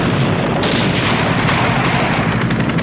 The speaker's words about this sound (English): A grenade is launched at the guards. One is hit. The men in the helicopters shoot into the building.